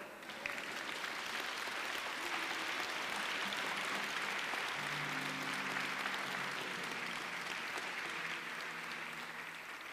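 An audience applauding during a church service acclamation, a dense, continuous roar of clapping that holds evenly for about ten seconds before easing slightly at the end.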